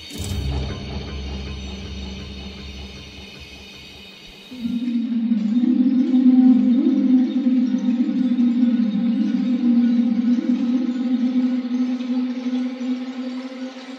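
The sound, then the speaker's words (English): An Indian conch shell blown into a tape delay machine gives a sustained, reedy drone that drops midway to a lower, steady hum, echoing and smearing into itself. The drone is loud and sounds alone. “So that sound that you hear on the surface of the planet, that's actually an Indian conch shell being blown into a tape delay”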